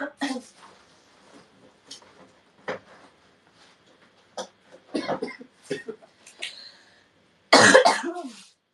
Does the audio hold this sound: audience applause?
no